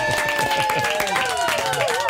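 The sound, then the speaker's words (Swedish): An audience gives a short round of applause for arriving in Kalmar, with brisk, close-packed claps and voices mixed in throughout. “Vi kommer till Kalmar. En liten applåd för det.”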